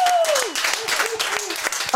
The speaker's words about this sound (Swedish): Applåder!